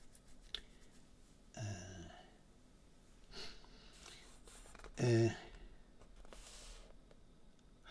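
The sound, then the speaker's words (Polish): Pages of a book are flipped one after another, making a few soft, papery swishes spaced apart, quiet and faint against low background hiss. “tak, tutaj jest wiele różnych, przeglądam kolejne kartki tego”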